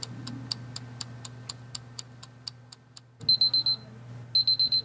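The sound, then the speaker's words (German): A kitchen timer set for seventeen minutes ticks in a steady, even rhythm, then rings with two bursts of rapid, high electronic beeps separated by a short pause. “So, die Uhr bimmelt”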